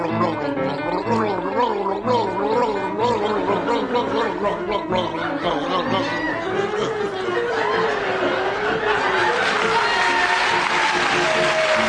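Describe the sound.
A man gargles the rapid classical tune Flight of the Bumblebee during a gargling contest, producing a continuous bubbling, warbling stream of wavering pitched tones that runs through the whole passage.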